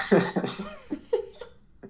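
A person coughs several times in short, rough bursts, fairly loud and close together, then fading into a final faint cough.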